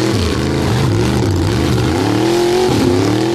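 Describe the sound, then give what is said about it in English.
Two oversized pickup trucks rev loudly in a mud tug of war. Their engines drone heavily without a break, the pitch wavering up and down and climbing again near the end. “Two oversized pickups doing a tug of war in the mud. You know, just burning up gas.”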